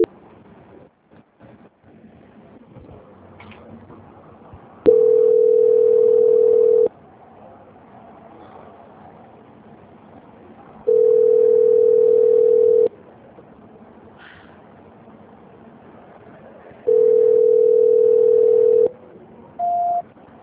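Intermittent telephone line tone after a dropped call: three steady mid-pitched beeps of about two seconds each, separated by roughly four-second gaps, then a shorter, higher tone at the end, with faint line noise in between.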